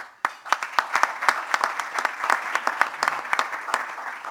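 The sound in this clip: Audience applause welcoming a Metro Council councilman to speak, a dense, steady patter of many hands clapping that begins abruptly and holds at an even level throughout.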